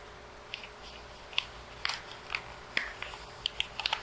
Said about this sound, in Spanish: Nuevamente, que ya está doblado, vengo yo y lo vuelvo a doblar.